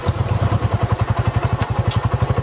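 A motorcycle engine running with a steady, rapid, low thumping putter that stays even throughout, with no talk over it.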